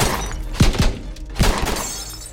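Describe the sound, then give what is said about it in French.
Bullets strike the bodywork of a Ford car and shatter its windshield: a few sharp cracking impacts and thuds ring out over a continuous gritty, crunching noise of breaking glass. “Les premières balles percutent la carrosserie et fracassent le pare-brise.”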